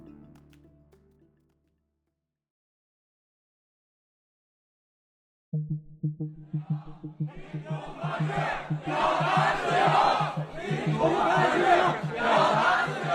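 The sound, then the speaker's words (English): Students chant at a protest at Tsinghua University in Beijing, calling for a free media and less censorship. After several seconds of silence, rhythmic chanting begins and swells into a loud massed chant. “What you're hearing right now is rare, and from the perspective of China's leaders, incredibly dangerous. It's the sound of students at Beijing's Tsinghua University calling for a free media and less censorship.”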